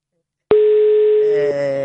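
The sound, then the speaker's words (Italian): A telephone ringing tone from an outgoing call: after half a second of silence, a steady mid-pitched tone sounds for about a second, then shifts into a fuller tone. “vi faccio sentire anche lo squillo, così siete partecipi di tutti i particolari di cronaca.”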